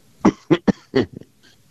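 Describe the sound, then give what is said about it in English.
A short coughing fit of four sharp coughs in quick succession, followed by a couple of smaller, fainter throat sounds, heard alone without talk, from someone who can't shake a lingering little cough. “Still can't shake that little cough.”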